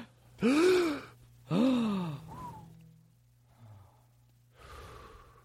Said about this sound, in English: I got to take a deep breath.